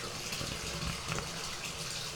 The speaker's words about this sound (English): And this bathtub is getting a little full, so I better dial back the water here a little bit.